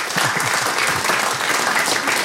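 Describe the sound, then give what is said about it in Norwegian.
Applause for a prize winner: a dense, steady wash of clapping that holds at an even loudness throughout, with no voices standing out. “vi tar en applaus for prisvinneren”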